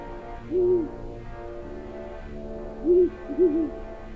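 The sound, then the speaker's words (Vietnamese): An owl hoots at night near a grave being dug: three clear, steady-pitched hoots stand out alone over a quiet background, the last two close together. “đâu đó tiếng cú mèo đi ăn đêm vẫn cứ vang lên lanh lảnh, càng làm cho không gian thêm nặng nề.”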